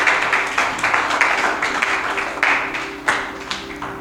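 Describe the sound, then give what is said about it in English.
Scattered audience clapping at a family meeting: irregular sharp claps rise now and then out of a steady noisy bed, with no voices on top. “Clap for me. I've preached. I've taught you. Clap for me.”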